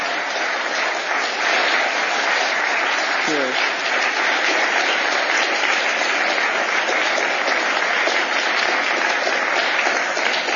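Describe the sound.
An audience gives a warm round of applause to welcome a panel onto the stage, steady, dense clapping that stays loud and even for the full ten seconds without pause.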